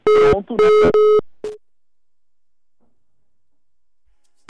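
Telephone busy tone after a dropped call: a few loud, steady electronic beeps at one fixed pitch in quick succession, then the line falls silent.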